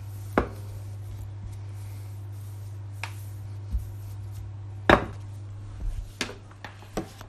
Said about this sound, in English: Okay, I'm just rolling it out now.